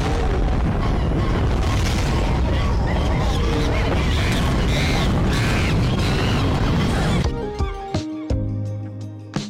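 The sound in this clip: A rocket launch blast-off effect: a loud, dense, rumbling roar holds steady for about seven seconds, then cuts off into a few sharp, ringing hits.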